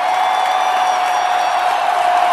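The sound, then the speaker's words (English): A crowd of nearly 20,000 cheers in an arena as a prime minister walks in: a dense, steady, loud roar of voices and applause that holds without a break. “Finally, a cheer worthy of Bruce Springsteen went up as Prime Minister Modi walked into the arena.”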